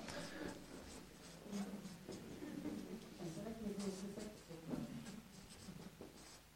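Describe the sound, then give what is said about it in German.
Handwritten words being put down in a German brainstorming session, a steady run of quick, irregular scratchy pen strokes with short gaps between words, moderately loud, while low voices murmur underneath throughout. “Ja, ich schreibe mal Verantwortung für die Umwelt, ja?”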